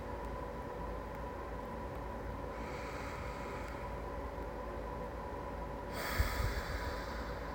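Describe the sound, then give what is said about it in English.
Slow, deep breathing during a guided relaxation exercise. Two long, airy breaths stand out over a steady low background hiss, with the second one louder and fuller. “Breathe in peace. And exhale fear.”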